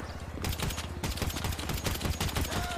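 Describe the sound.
Rapid gunfire from a police video game: a dense volley of many sharp, loud shots in quick, irregular succession, fired during an in-game shootout.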